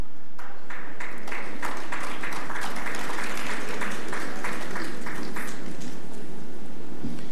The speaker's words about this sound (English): Please put your hands together for Dr. Cleveland Sam with his assistance.